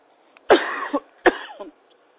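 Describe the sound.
Two harsh coughs from a person, spaced under a second apart, each with a short raspy tail, heard alone without talk.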